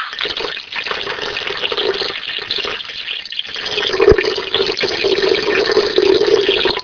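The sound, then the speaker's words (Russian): Water splashing from a well beside a house, a steady gushing, pouring stream that runs throughout, with a brief sharp knock partway through and the flow growing slightly louder toward the end. “Плеск воды из колодца около дома.”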